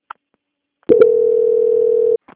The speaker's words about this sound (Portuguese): peço só que aguarde em linha enquanto eu transfiro para o setor de qualidade da continuidade na contratação, tudo bem?